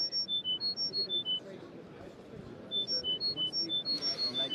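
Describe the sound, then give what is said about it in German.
Short, pure beeping tones from a tinnitus therapy patient device step through a repeating sequence of high pitches. They fade under a stretch of murmuring voices in the middle, then return clearly. “Durch das Hören der Tonfolge sollen die Nervenzellen lernen, den Tinnitus-Ton wieder zu verlernen.”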